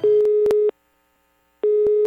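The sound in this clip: A steady telephone call tone sounds in two bursts with a silent gap between them, marked by clicks, as a radio station dials a listener for a prize giveaway.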